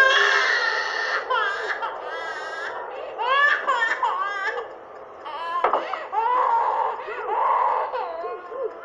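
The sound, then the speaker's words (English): A colicky baby cries constantly, a high, strained wail in repeated harmonic bursts that rise and fall, breaking briefly between breaths before starting again. “Must be a colic baby. Constantly.”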